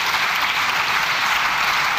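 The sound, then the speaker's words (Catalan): Applause and an ovation from the Socialist benches in the chamber of the Spanish Congress after the housing minister's speech, a dense, sustained clapping that stays level throughout. “Just és el moment en què acaba la intervenció la ministra d'Habitatge a l'hemicicle del Congrés, amb aquest aplaudiment, amb aquesta ovació per part de tota la bancada socialista”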